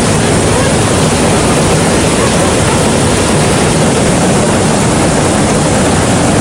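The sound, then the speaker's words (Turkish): Floodwater pours into streets and a shop in Kağıthane after heavy rain, making a loud, unbroken rushing roar that holds steady throughout. “Kağıthane'de cadde ve sokaklar suyla doldu. Bazı araçlar su içerisinde kalırken ev ve iş yerlerini sel bastı. Dükkanı su basmakta.”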